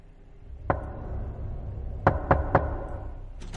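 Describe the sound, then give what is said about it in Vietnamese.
Knocking on a wooden door at night: one firm knock, then after a pause three quick knocks in a row, each a sharp wooden thud over a low steady background rumble. “thì vang lên có tiếng gõ cửa.”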